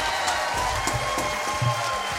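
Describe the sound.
Canned applause played from a soundboard button: a uniform wash of clapping and crowd noise at a constant level, with no individual claps standing out.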